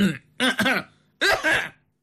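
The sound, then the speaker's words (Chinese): Forceful, exaggerated throat clearing in two harsh, raspy bursts separated by a short pause, the second slightly longer, with no speech around it. “这嗓子清的差一点没把扁桃体给清出来”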